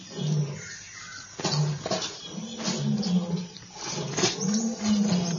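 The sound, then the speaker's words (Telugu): A lion roars in pain: a few low, drawn-out growling roars rising and falling one after another, at moderate loudness. “Androcles ని చూసిన సింహం నొప్పితో అరవసాగింది.”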